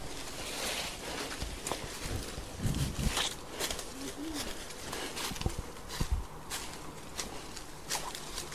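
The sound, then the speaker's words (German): Footsteps crunching and rustling through dense undergrowth beside a cemetery, with irregular snapping and brushing of twigs and leaves under a steady, faint background. “Also ich laufe wieder durch dieses Gestrüpp. Ups. Am Friedhof hier entlang.”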